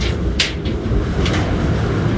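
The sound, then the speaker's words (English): The door of a large laundry dryer that holds about 100 pounds of washing is opened in a Navy laundry. A few brief clunks and scrapes sound over a constant low machine rumble. “Right now I'm opening the dryer. This dryer holds about 100 pounds of laundry.”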